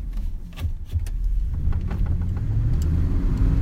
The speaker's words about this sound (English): But there's no actual road to get there, so we're driving over sand dunes.